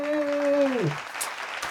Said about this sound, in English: We should do some applause to start this off.